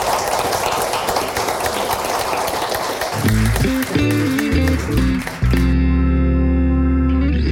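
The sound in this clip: Live audience applause thanking a guest at a festival show: dense clapping for about three seconds, which then gives way to loud music with sustained tones.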